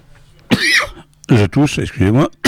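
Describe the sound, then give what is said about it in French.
A single harsh cough bursts out during a theatre performance, followed by voiced sound as people talk. “je tousse hors micro, donc vous n'entendez pas, si, là oui.”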